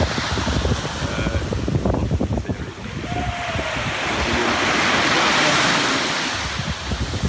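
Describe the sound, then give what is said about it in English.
Ocean waves wash onto a beach in a broad, steady roar that swells louder through the middle, with wind buffeting the microphone throughout. “Yikes, I'm getting my feet wet. There it is. There's our spot on the beach.”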